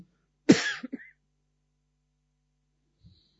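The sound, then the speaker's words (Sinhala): A single short cough from the person leading a guided Buddhist meditation session, sharp at the start and dying away within half a second, followed by near silence with a faint small sound later. “විටෙන් විට කැස්සක් එනවා. මම දන්නේ කොයිලයිද එන්නේ කියලා. එනිසා mic එක වහන්න බෑ.”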